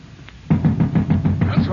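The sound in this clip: Heavy knocking on a door as the king's watch arrives, a rapid, loud series of raps that starts abruptly and keeps a steady rhythm to the end.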